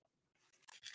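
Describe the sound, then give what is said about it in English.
A pen scratches faintly on paper as notes are written by hand, with short scratchy strokes that grow denser and louder toward the end. “By the way, I'm writing this down.”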